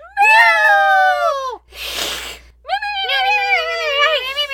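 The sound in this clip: People imitate cats meowing with two drawn-out, loud meow-like calls of sliding pitch, separated by a short breathy hiss.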